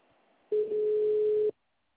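A telephone tone follows a dropped call: one steady, mid-pitched beep lasting about a second, heard alone, then silence.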